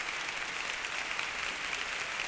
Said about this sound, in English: He asks the orchestra to stand with him to accept the applause of this audience. Always warm applause and bravos even in advance for Rafael Kubelik.